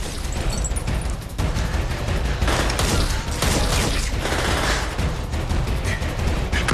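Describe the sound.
Gunfire fills a garage during a shootout: dense, loud volleys of many rapid shots and sharp cracking reports continue almost without pause, with only brief lulls.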